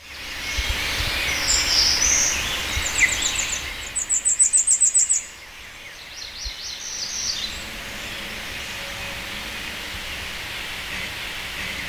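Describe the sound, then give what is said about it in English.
American goldfinch song: bright, high chirps and twitters with a quick burst of rapid repeated notes midway, over a steady background hiss. “American goldfinch.”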